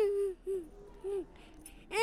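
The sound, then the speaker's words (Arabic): An injured child cries in pain while a wound is being treated, giving a few short, wavering, high-pitched wails with gaps between them. The last cry swells louder at the end. “لا تبكي لا تبكي حبيبي، أنت بتكون بخير.”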